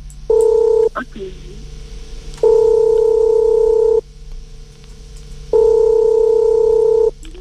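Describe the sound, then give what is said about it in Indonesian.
A telephone tone sounds while a call is being placed: three steady electronic tone bursts, the first short and the others about one and a half seconds each, separated by quieter gaps with faint background hum. “Kita coba hubungi dulu, semoga diangkat ya.”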